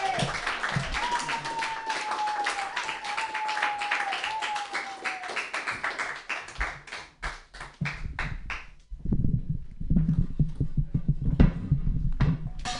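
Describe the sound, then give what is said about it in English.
An audience claps hands in a wild, slappy motion at a comedy club to welcome a comedian. Sharp, separate slaps repeat over a steady high whistle-like tone, then the clapping thins out and low thumps follow. “Clap your hands in a wild slappy-like motion.”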